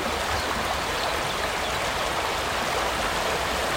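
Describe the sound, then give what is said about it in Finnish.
Rapids rush along the longest natural, free-flowing stretch of the Mustijoki river, a dense, unbroken roar of churning water that stays steady and even from start to finish, with no voices. “Mustijoen pisin luonnontilainen koski. Ja siellä kun herra radiokuuluttaja aamusella aikaisemmin tänään käväisi paikan päällä, niin tältä siellä kuulosti.”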